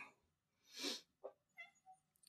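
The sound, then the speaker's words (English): Cats meowing loudly, heard faintly as a short breathy cry followed by a few brief tonal mews and small chirps. “my cats are meowing very loudly, so I'm sorry if any kitties of that is coming through.”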